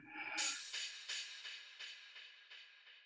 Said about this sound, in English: We're breathing. And exhaling through the nose and feeling that breath on our fingertips.